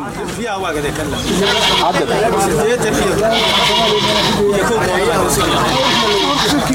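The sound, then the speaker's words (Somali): Sheep and goats bleat at a busy livestock market, many loud overlapping calls running continuously over a steady hubbub of crowd chatter. “Muddo ka badan 30 sano ayaa halkan xoolaha lagu kala iibinaya, waxaana maalintii isugu yimaada boqolaal qof oo isugu jira safaray xoolaha suuqa keena iyo dadka ka iibsada”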